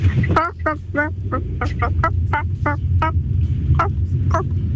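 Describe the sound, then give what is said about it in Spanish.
A hen, a cross between a hen and a rooster, gives a rapid run of many short, throaty clucking calls over a low background rumble. No one speaks. “Esa gallina con cruce de gallo.”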